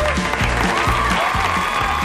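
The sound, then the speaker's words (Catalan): Applause from an audience at a school event, welcoming arts students: a continuous burst of clapping at an even level, with a few voices faintly mixed into the clatter. “Aplaudeixen!”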